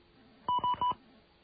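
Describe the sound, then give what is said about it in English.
Three short touch-tone telephone beeps as an area code is dialed on an outside line, evenly spaced and crisp over a quiet line hiss. “We're going to dial this, this special number and see what happens. All right, we got our outside line. And we're going to dial the area code here.”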